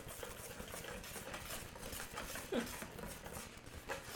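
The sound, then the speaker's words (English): Dry baking ingredients being whisked together in a bowl: a faint, steady, scratchy stirring that runs throughout, with a light clink near the middle. “Those are our dry ingredients. We're just going to whisk those together.”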